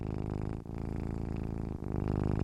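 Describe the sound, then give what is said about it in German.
A cat purrs while curled up on someone's belly, a low, steady rumbling purr with two brief dips where the breath turns over. “Sie hat sich auf deinem Bauch zusammengerollt und schnurrt.”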